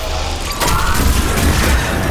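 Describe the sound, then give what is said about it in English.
Hydra missile launcher firing homing missiles at a Banshee in a video game. After a brief quieter start, a loud booming burst swells into dense, rumbling fire that continues to the end. “We did one shot, and then it split up, and it automatically homed in on everything that was on the field.”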